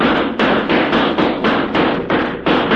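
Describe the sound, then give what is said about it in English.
Gunshots from a .45 fired to shoot out the lights at a barn dance: about eight loud bangs in quick, even succession, with no quiet gap between them. “A night back in this here barn dance, I didn't get a chance to use my .45. I'll shoot out the lights. Go ahead, Carol. Shoot out all the lights.”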